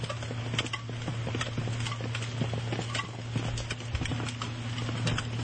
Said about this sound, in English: This is last night in Tokyo, and it's the sound of rain hitting crushed Kirin cans strewn along the street.